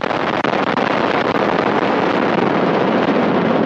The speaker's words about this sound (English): Engines at maximum thrust. And liftoff. Liftoff of the 67th Progress resupply vehicle bound on a 2-day journey to the International Space Station.